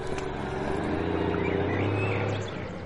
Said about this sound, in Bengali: একটা military lorry আমাদের পাশ কাটিয়ে নাথুলার দিকে চলে গেল।